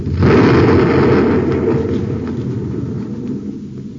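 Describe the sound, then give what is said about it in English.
Torpedo explosion blowing a light neutralizer to bits, a loud, broad roaring rumble that bursts in abruptly and slowly dies away over several seconds. “What a blast. Yeah, there goes a perfectly good light neutralizer, blown to bits.”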